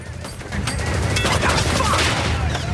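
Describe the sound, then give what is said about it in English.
Gunfire from a vehicle driving through city streets during combat in Iraq. Rapid, irregular shots and cracks run over a heavy, constant low rumble. “As Ray drives through the streets, Brad calmly fires at the enemy.”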